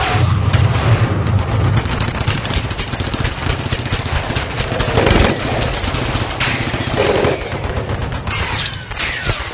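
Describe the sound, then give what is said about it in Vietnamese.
Gunfire in a wartime jungle ambush: dense, continuous rattling bursts of automatic weapons, loud and unbroken throughout, with no voices. “Cùng lúc đó những tiếng súng nổ ròn rã liên hồi.”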